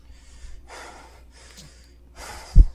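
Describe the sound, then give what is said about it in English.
Heavy, out-of-breath breathing after loud protest chanting: four rasping, noisy breaths follow one another in quick succession, with a short thump at the end and no talk. “He's out of breath. Which, to be fair, I would be too.”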